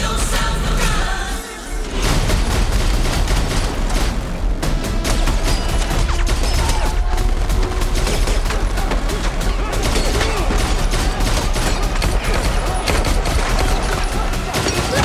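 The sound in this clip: Gunfire from an action film: loud, dense bursts of rapid shots in a near-continuous barrage that runs through the whole stretch after a brief dip near the start.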